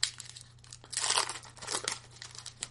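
Tearing and crinkling as a pack of 1993-94 O-Pee-Chee Premier hockey cards is opened: a few bursts of crisp wrapper noise, the longest and loudest in the middle, with no talking.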